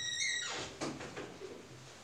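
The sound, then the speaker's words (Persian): A door being opened: a clunk followed by a few softer knocks and rattles, faint, after a high ringing tone fades out. “من عذرخواهی میکنم یه لحظه در رو باز کنم فکر کنم ببینم چه هست.”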